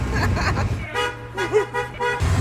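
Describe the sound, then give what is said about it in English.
A golf cart drives through a fan festival area. Its steady, low motor hum runs beneath people's voices. “We're in the cart, if you can't hear it already. This is kind of fantastic. This is how large it is. You need a golf cart.”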